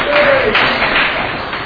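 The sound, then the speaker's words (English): Applause from the audience at an Alcoholics Anonymous meeting: a loud, dense, steady wash of clapping with a dull, muffled tone and no sharp highs. “Let's round of applause for the Al-Anon members here.”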